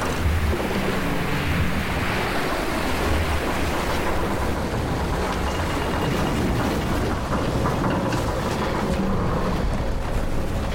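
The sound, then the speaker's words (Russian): A yacht under sail cuts through water with a continuous loud rush of water and wind, steady and unbroken for about eleven seconds, with no talk. “Яхта плывет, красиво рассекая воду.”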